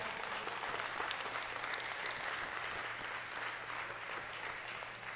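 A church audience applauds during a sermon, giving steady, dense clapping that continues at an even, fairly faint level for the whole clip with no talking over it.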